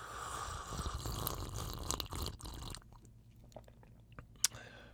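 Faint slurping sips of siphon-brewed coffee with soft wet mouth noises, then a quieter stretch broken by small clicks and one sharp tick near the end.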